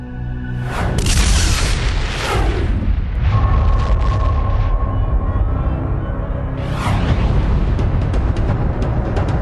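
An explosion sound effect evoking a cosmic gamma-ray burst: a loud, deep, continuous rumbling roar with two sharper, brighter surges, one near the start and one later, and no talk over it.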